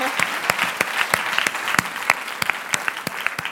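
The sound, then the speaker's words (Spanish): Applause from an audience after a testimony about studying artificial intelligence: many sharp, separate claps at a steady, moderately loud level throughout, with no voices over them. “un aplauso”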